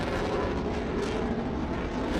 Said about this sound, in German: Immer wieder droht China Taiwan mit militärischer Gewalt. Und fliegt mit Kampfjets über die inoffizielle Grenze.